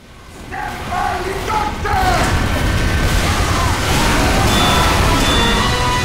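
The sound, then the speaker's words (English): Gunshots in a video game: loud, booming shots fire in dense overlapping bursts, blending into a continuous roar of battle noise that fills the whole stretch without a clear pause. “Apparently, I died in 2 bullets. That makes sense. As soon as you shot me.”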